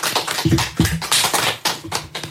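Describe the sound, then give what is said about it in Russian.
Scattered applause from a few people in a radio studio after a song: separate sharp claps at an uneven pace, some with a dull thud, moderately loud. “Ну, аплодисменты.”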